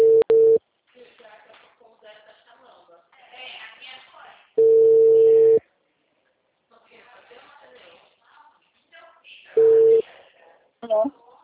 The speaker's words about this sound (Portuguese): desculpa, caiu a ligação, ficou muda